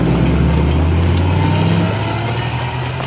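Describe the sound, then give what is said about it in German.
A black delivery van's engine rumbles as it starts to drive off, a loud, steady low drone that eases slightly toward the end. “Jerry mit seinen Freunden vor einem schwarzen Lieferwagen, der sich just in Bewegung setzte.”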